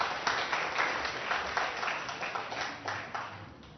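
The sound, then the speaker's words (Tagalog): An audience applauding during a worship service. Many hands clap at once in a steady, fairly faint wash that continues throughout with slight swells. “Palakpakan natin ng Panginoon.”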